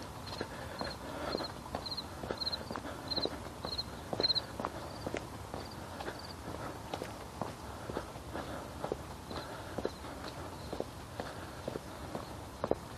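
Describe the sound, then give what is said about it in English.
Footsteps of a person walking at a steady pace outdoors on a morning loop where joggers pass, with many even, regular steps and no talking. “Yeah, I can't jog. My knees wouldn't allow it. I'll have to just continue walking.”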